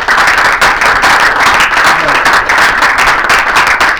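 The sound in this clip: Audience applause after a presentation at a talk, dense clapping from many hands, loud and continuous throughout with no pause.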